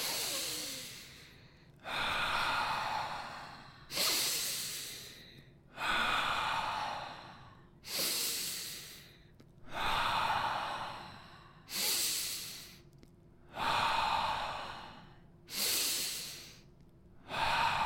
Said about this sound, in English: we're going to take 10 big, deep, fast breaths again, just to recharge and switch back on. Let's start that now. Big breath in.